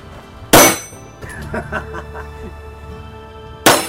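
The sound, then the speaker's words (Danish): Two shots strike a metal shooting target, each a loud, sharp clang. Ringing metallic tones linger after the first hit, with faint clinks before the second. “Rammer jeg? Ja, ja, det kan du høre på det ding.”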